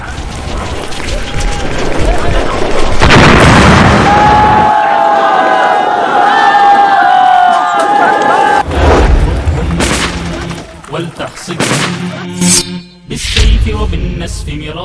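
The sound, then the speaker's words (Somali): Landmines blast apart a military base in heavy, loud explosions: a big boom near the start, then a run of sharp bursts later on, with voices and crowd-like noise mixed in. “iyadoon intaa kadib ay miino ku xirayaan saldhigga oo gabi ahaanba dhulka ay la simayaan”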